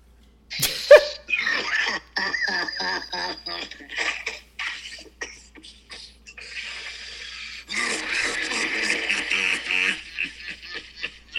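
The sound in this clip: A man coughs harshly after taking a big bong hit, one loud raspy burst near the start, with people talking around it and more throaty sounds mixed into the speech.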